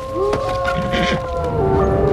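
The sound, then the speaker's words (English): Wolves in a pack howl in a dark forest, several drawn-out tonal cries overlapping and wavering in a sustained, eerie chorus over a low rumble. “Don't worry, it's just a pack of wolves.”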